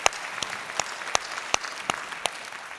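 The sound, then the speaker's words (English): A church audience applauds to welcome first-time guests: dense, steady clapping cut through by sharp, louder claps landing at an even, regular beat. “Can we put our hands together and welcome our first time guests?”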